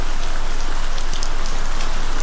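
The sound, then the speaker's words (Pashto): Heavy rain pouring down in a dense, loud, unbroken hiss of drops, steady from start to finish with no voices. “باران تیز شو، داسې شرشوری شو لکه ناوی چې له اسمان را خوشي شي.”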